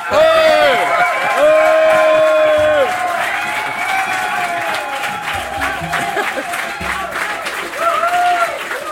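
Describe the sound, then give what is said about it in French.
Applause and cheering from a standing audience at a festival concert: loud, dense clapping with sustained cheering voices and whoops above it, strongest at the start and swelling again near the end. “Et standing ovation.”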